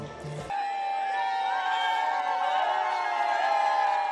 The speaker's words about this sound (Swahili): Umati wa watu ulishangilia wakati Papa Francis mwenye asili ya Argentina alipowasalimia kwa lugha ya Lingala